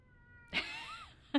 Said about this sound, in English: Is that a cat or a dog? That's a cat.